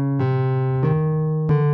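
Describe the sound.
The B-A-C-H four-note motif, transposed into C-sharp minor, plays as four sustained, harmonically rich tones in sequence. A long held note closes the phrase, and no one speaks.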